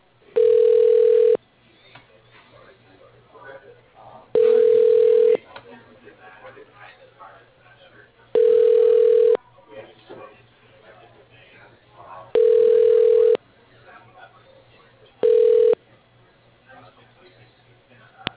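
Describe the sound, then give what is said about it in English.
Ringback tone of a telephone call being transferred: five steady, mid-pitched electronic tones spaced about four seconds apart, the last one cut short, with only faint low background noise between them. “Your call is being transferred.”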